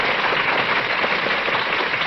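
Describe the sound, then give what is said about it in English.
Steady applause for audience members from Abilene, a dense, even patter of many hands clapping at once, with no voices. “A round of applause for the folks from Abilene.”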